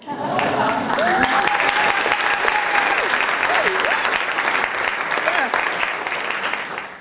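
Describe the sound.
A radio show's studio audience applauds to welcome a guest, with dense, steady clapping that stays loud throughout and voices calling out over it.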